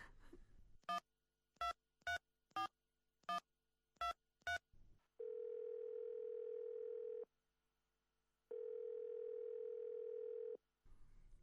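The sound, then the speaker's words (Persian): Telephone keypad tones while placing a call: seven short, evenly spaced beeps as the number is dialed, followed by two long, steady ringing tones separated by a pause, with no talk. “باش که به محمود زنگ بزنم.”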